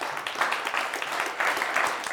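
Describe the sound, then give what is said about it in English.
Audience applause for members of an event team, a thick, continuous wash of many hands clapping at a steady, fairly loud level, rising slightly in the middle. “So Jennifer and Travis and Jonathan, just please give them a round of applause, they were awesome”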